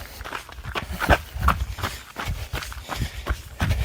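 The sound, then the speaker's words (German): Footsteps of someone walking a short stretch: a series of many soft, uneven impacts spread across the whole stretch, with no voices. “So, dann laufen wir wieder ein Stückchen.”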